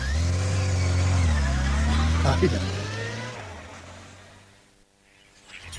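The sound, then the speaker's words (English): A motorbike engine rides past with a steady, throaty drone that drops in pitch partway through and then fades out. “On the motorbike.”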